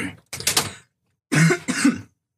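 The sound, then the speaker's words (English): A person coughs in two bursts of several harsh, loud coughs, separated by a short silence, with no talk. “goddamn, gotta get these coughs out, huh?”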